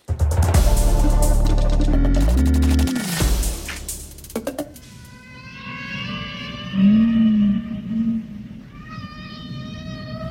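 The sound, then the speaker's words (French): Whales singing: sustained, wavering tonal calls with stacked harmonics and a low swooping moan. A louder, denser passage comes just before the calls, and no one talks. “Ne se lasse pas d'entendre les baleines chanter”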